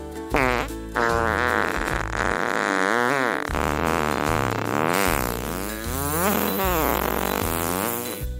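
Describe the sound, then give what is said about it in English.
A fart sound effect from a comedic ad for breath-freshening gummies: a long, loud run of buzzing flatulent blasts with wobbling, sweeping pitch, continuous throughout with no talk. “I'm not afraid to let one rip at parties or family gatherings anymore.”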